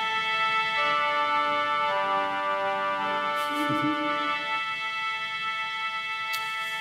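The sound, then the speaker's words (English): A theater pipe organ sounds its violin string stops in smooth, sustained bowed-string chords whose notes shift gradually, played alone and held steadily throughout. “So the backbone of any orchestra are the violins or the strings. We have those here. They sound something like this.”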